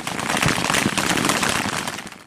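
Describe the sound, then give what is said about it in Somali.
Sporadic gunfire in a battle film scene, sharp cracking shots scattered over a dense, noisy background, heard alone without voices. “dagaalka oo socday muddo kooban kadib waxaa joogsatay rasaasta inteedii badnayd walow aad maqlayso mid teel-teel ah oo dhacaysa”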